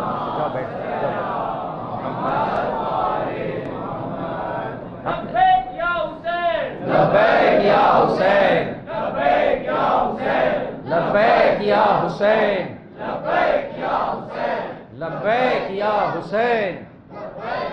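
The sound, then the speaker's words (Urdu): At a Shia religious gathering in Lahore, a crowd chants religious slogans such as Allahu Akbar. A lead voice calls and the crowd answers with many loud, forceful shouted bursts that repeat in a steady call-and-response pattern. “ہمارے لاہور کے مومنین ماشاءاللہ نعرہ لگانے میں واقعی میں نے دیکھا کراچی سے بہت بہتر نظر آیا مجھے, واقعی دو ہاتھوں سے نعرہ لگاتے ہیں”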